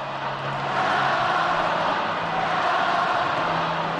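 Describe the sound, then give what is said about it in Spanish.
A crowd chants for Rafael Nadal at a tennis match in Madrid, a dense, unbroken roar of many voices with a low rhythmic pulse running through it from start to finish. “la primera de las muchísimas ovaciones. Mira, mira, mira lo que canta el público de Madrid.”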